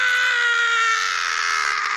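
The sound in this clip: A voice imitates a drunk man screaming as he runs away, giving one long, high, strained yell that holds steady and loud from start to finish.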